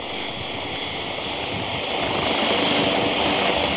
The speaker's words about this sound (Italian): Il decollo, sì, in questo momento.